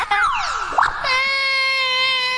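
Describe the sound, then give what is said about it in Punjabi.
A person is crying: a falling wail, then a short rising sob, then a long, loud, sustained high-pitched wailing note. “ਤੂੰ ਕਿਉਂ ਰੋਈ ਜਾ ਰਿਹਾ?”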